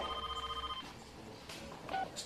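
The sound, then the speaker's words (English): A telephone rings with a faint, steady electronic tone that repeats rapidly for under a second and then stops, followed by quiet background noise. “Noah calls Corey to see if he is available to meet up.”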